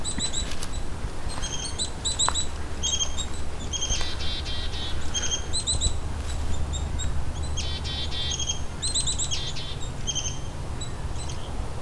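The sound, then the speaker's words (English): Many black-capped chickadees calling, with high, thin chirps and quick repeated note series scattered throughout over a steady low background rumble. “Here's a whole lot of black-capped chickadees.”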